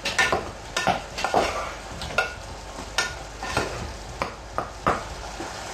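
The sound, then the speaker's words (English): Utensil scraping and clinking in a pot of simmering food just seasoned with mushroom or vegetable seasoning: many soft, irregular knocks over a low continuous hiss, with no talk. “Let it simmer.”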